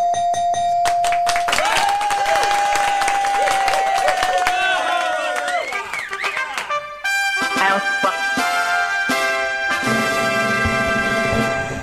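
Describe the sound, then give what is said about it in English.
A trumpet fanfare marks a quiz contestant winning every round of a trivia game: loud, sustained brassy tones ring out, then give way to a busier burst of layered musical notes. “for the people in the audience, that was a big, huge, that flaring of the trumpets means that you won every single round.”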